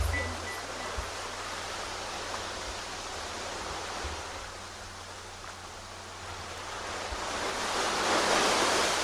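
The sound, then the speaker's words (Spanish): Sea waves wash in a continuous rushing roar, a steady broad hiss of surf that swells louder toward the end, with no voices. “El mar. La mar, muy bien.”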